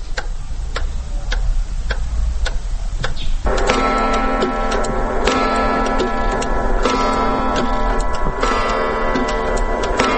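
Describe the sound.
Regular, even ticking of a large clock with locally made parts, then a sustained ringing chime that enters after a few seconds and rings on under the steady ticks to the end.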